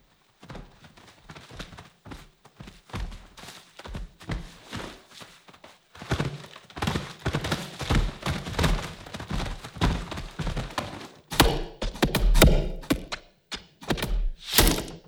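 Thick, padded foley footsteps for ape feet and hands, made with leather gloves and mitts: many dull thumps in an uneven walking rhythm, sparse and soft at first, then denser and louder.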